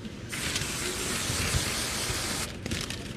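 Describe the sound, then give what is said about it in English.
Whipped cream sprayed from an aerosol can onto freshly made mini cake donuts at a food stand: a steady hiss lasting about two seconds, then a few brief spurts. “We'll shoot a little bit of whipped cream in there.”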